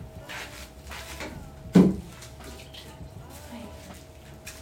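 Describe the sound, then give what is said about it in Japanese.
Hot water poured out of a tea bowl while preparing matcha, after the bamboo whisk has been soaked: soft, steady splashing throughout, with a single sharp clunk partway through. “これで一回お湯は捨てますね”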